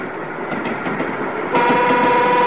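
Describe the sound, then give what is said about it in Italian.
A train with wagons rolls past in a loud, steady rumble with a clattering texture. Partway through, a sustained horn tone joins and the overall level rises. “Però l'altra volta c'erano più vagoni. Vabbè, insomma, il treno è sempre il treno,”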